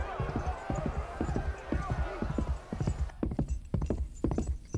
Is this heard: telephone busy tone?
no